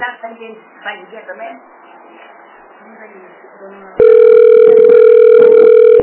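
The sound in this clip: Telephone ringing tone: a loud, steady electronic tone with a few bright harmonics. It starts abruptly after several seconds of murmured talk and holds unchanged to the end.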